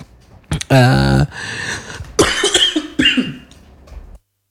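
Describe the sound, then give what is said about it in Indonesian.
A person coughs several times in loud, rough bursts mixed with brief voiced, throat-clearing sounds, then falls silent. “tiba-tiba batuk nih”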